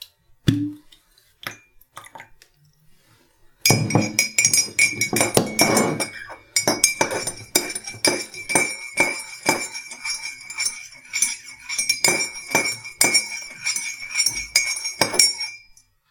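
A spoon clinks against a glass as a teaspoon of vinegar is stirred into egg dye. One dull knock comes first, then a long, loud run of many quick, bright, ringing clinks with no voices.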